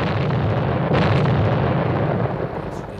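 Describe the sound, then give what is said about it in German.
A staged explosion at a railway station, heard in a 1955 recording: a heavy, continuous roaring rumble that surges slightly near one second and eases a little toward the end. “Als der Qualm der Explosion sich verzog von der Kulisse”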